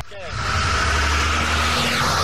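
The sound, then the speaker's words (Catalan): Heavy truck engine rumbling past on the Sitges seafront promenade during a carnival parade, a loud, steady low drone mixed with dense background noise throughout. “Acaba de passar un camió lepero.”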